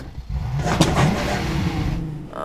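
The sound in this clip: A car engine revs with a wavering pitch as someone drives slowly in first gear at night, working the clutch while changing gears; the rough, steady engine noise continues throughout.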